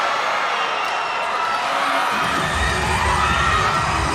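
An arena crowd roars in support of the Chinese team, a dense, loud wash of cheering and shouting that holds steady from start to finish.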